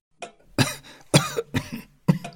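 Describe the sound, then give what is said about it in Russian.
A man coughs from pipe tobacco smoke in a smoky room: four harsh, loud coughs in an uneven rhythm, with a fainter rasp before the first, and no talk. “Что вы кашляете, Ватсон? Простудились? Да нет, это все ваш проклятый табак.”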